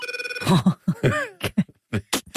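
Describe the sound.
A telephone ringing effect from a TV series: a brief run of rapid electronic trilling pulses at the very start, followed by people talking.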